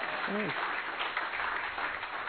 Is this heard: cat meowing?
no